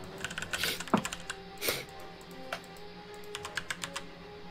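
Computer keyboard typing: many faint, irregular keystroke clicks in short scattered runs, with a low steady hum behind them.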